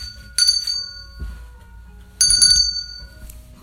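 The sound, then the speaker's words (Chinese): An electric bell rings in two short bursts of bright, high metallic tones separated by a brief pause, with low rumbling noise beneath. “然后电铃铛又响了。铃铛响到一半，”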